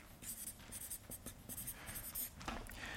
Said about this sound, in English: I'll just write that next to it here.